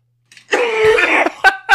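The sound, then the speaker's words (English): A man gags after straining his throat with a gravelly impersonation voice: a strained, retching throat sound lasting under a second, then two brief harsh bursts. “It straight up triggered my gag reflex somehow.”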